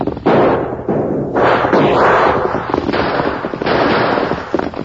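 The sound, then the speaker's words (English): Gunshots ring out in a radio drama shootout, several loud, sharp cracks and booming bursts in quick, irregular succession that overlap into a dense barrage. “Use your guns”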